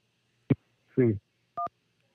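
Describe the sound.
Incoming phone call tones on a radio call-in line: a sharp click, then a short buzzy burst, then a brief clean two-tone electronic beep, each separated by silence.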